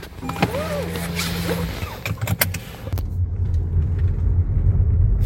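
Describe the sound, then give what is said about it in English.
A car driving across a large site, with a low engine rumble that grows fuller and steadier in the second half, after a few brief squeaks and clicks early on. “we just drove about 1.6 miles to the other side of the site to D4.”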